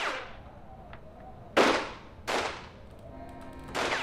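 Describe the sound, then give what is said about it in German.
Three sharp, sudden gunshots ring out at uneven intervals, each a loud crack with a short tail over a low, steady background hum. “Ich war kaum vom Hof gefahren, da fielen plötzlich Schüsse. Einfach so, aus dem Nichts.”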